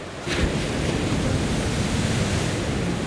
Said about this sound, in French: Ah, elle est belle, elle est généreuse, cette mer, cet Atlantique, là